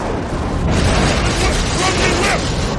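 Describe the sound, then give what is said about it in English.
A photon torpedo striking a Klingon ship in a science-fiction film: a dense, roaring explosion rumble that fills the whole three seconds at a steady loud level. “And in the next moment, we see a photon torpedo shoot from the Enterprise, it looks like, and hit the Klingon ship.”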